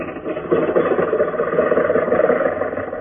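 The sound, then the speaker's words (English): A car engine runs with a steady, even mid-pitched rumble that holds without a break, with no voices over it. “Now, get in the car. Get going, Rochester. We haven't much time.”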